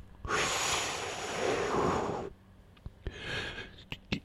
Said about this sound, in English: And they can join us for some inhalation therapy here. We'll do our inflow web.